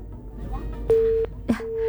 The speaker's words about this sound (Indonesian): Terputus, bisa dicoba kembali nggih yang di 24644.